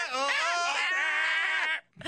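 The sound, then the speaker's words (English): Screaming goats heard on a novelty recording in which they sing a Christmas carol under a conductor: one long, loud, wavering high-pitched bleating cry lasting nearly two seconds, then a brief low sound. “Screaming goats on the doghouse. Here they are with a conductor singing, "We Wish You a Merry Christmas."”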